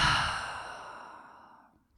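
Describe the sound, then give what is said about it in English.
A deep breath exhaled through an open mouth: one long, airy exhale that starts loud and fades steadily over about two seconds, heard alone with no talking. “Let's take a breath, all of us together, mainly me. Inhale. And open mouth, exhale.”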